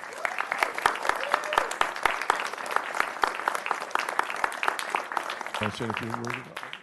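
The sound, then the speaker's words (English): Audience applause for an award honoree at a city recognition in Rancho Santa Margarita, dense sustained clapping throughout, with a voice breaking in near the end. “Now, on behalf of the city of Rancho Santa Margarita, everyone on our staff, and the rest of the residents in the city, we'd like to congratulate you on this recognition. Let's hear it for Audrey.”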